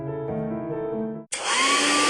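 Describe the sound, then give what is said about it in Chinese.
A Dyson hair dryer switches on abruptly and blows a steady, loud, airy roar with a thin high whine running through it, continuing without pause to the end. “哎，每次吹完头发又毛又斑，真闹心。 老婆，这是你吹风机没选对，派出所给你新买的戴森吹风机”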